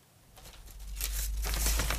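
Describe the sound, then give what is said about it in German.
Soft crackling and rustling of brittle, nearly 300-year-old sheet-music paper handled with care in a paper restorer's workshop in Berlin. The noise is continuous and grows louder partway through, with no voices. “Es knistert leise, altes Notenpapier, mehrere hundert Jahre alt.”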